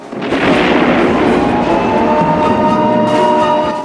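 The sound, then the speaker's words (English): A police car explodes in a film with a loud, roaring blast that swells quickly into a heavy, sustained rumble and eases slightly at the end. “The police car explodes.”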